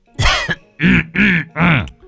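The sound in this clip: An old man coughs and clears his throat in a few harsh, throaty bursts. The bursts are pitched and drawn out, like a voice imitating the cough.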